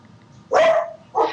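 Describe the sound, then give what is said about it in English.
Dog barking at home: two sharp barks, a longer one followed by a shorter one, each rising out of near silence. “My dog. Sorry.”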